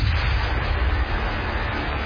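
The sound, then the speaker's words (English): A deep, roaring explosion effect depicting the Big Bang: a dense, sustained blast heavy in bass rumble that holds steady and loud for about two seconds. “The Big Bang. The birth of time itself.”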